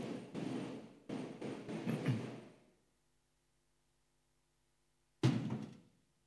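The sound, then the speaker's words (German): A window being shut: a broad rumbling noise that cuts off abruptly, then after a quiet stretch a single solid thunk with a short decaying tail. “Wollen wir das Fenster kurz zumachen?”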